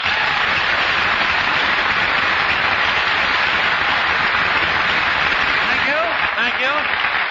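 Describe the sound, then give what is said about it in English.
A studio audience applauds a comedian's entrance at an old radio variety show, a thick, steady roar of clapping with a muffled, band-limited tone. A voice briefly surfaces near the end. “Take down the applause sign.”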